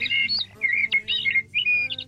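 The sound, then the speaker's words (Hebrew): Common blackbird song: a few clear, fluty, warbling phrases separated by short pauses, bright and fairly loud, over a faint low steady hum. “לפני שנדבר עליו עוד קצת, בואו נשמע את הצליל שלו. יש לנו את הצליל של השחרור, רגע, בואו נשמע אותו.”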